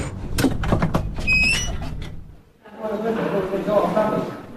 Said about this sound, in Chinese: 他瘫坐在手术室歇了一会儿，才推门走出手术室。